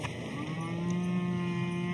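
Highland cattle from a herd give a long, low, steady moo that holds for the whole clip.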